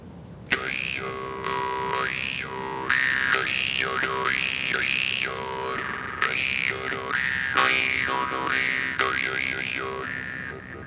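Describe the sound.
Nomad music played on a timikomus, the song of a camel mare's lament: a twanging drone under sweeping, vowel-like overtones that bend up and down in repeated phrases, steady and fairly loud throughout.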